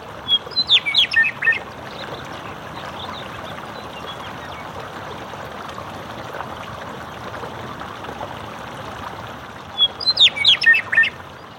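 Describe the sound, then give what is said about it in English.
A meadowlark sings in two short, bright bursts of chirping phrases, one near the start and one near the end, over the steady rush of runoff water from the Mammoth Hot Springs thermal system flowing down a channel. “there was a meadowlark who flew in and just perched very close to me and the microphone and just sang his heart out.”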